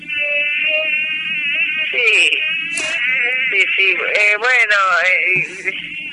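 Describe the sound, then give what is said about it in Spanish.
A voice imitates a swarm of mosquitoes in a botanical garden with a continuous, nasal, high buzzing whine. Its pitch wavers and bends in sweeps, with a few breathy bursts mixed in, loud and unbroken for about six seconds. “estás entonces en el Jardín Botánico, rodeado de mosquitos”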